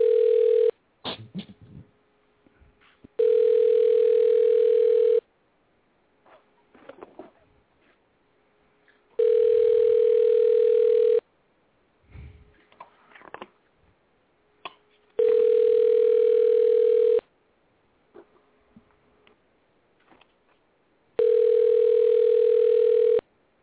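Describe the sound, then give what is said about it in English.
A telephone line tone sounds while a call is being placed: four long, steady, loud tones of about two seconds each, repeating at regular intervals, with faint clicks and small noises in the quiet gaps between them. “And we're calling live on air.”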